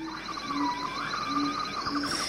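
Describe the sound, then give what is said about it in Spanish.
Birds sing in a forest above the steady rush of running water, their faint, repeated chirps and short whistled notes rising and falling over the constant watery hiss. “es interesante escuchar el bosque, ¿no? El rumor del agua, algunas aves, algunos pájaros cantando.”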